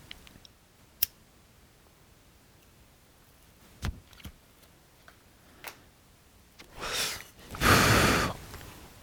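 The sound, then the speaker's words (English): Someone lights up a cigarette: a few sharp, isolated clicks spread apart, then two longer breathy hissing bursts near the end. Nobody talks. “Now excuse me while I light up a cigarette here.”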